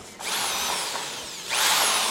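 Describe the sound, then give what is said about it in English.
A power drill boring holes for mason bee homes made by volunteers: a steady, loud, high-pitched whine that runs continuously, then surges louder in a second burst toward the end. “This drill is going to be more powerful than that one. Let's use that one for the little holes.”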